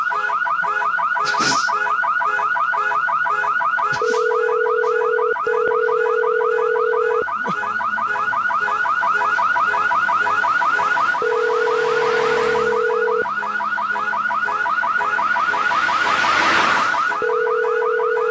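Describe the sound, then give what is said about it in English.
Car alarm going off, loud and continuous, cycling through repeating electronic siren tones and pulsing patterns without pause. “Yeah, can you find out who has this car and have them come down here and turn off the alarm?”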